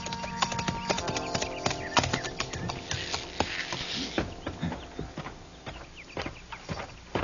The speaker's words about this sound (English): It was near sundown when I rode up to the Barton Ranch house.